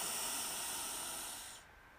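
A deep breath during a guided breathing exercise: a steady, airy rush of breath holds for about a second and a half, then drops away to near quiet.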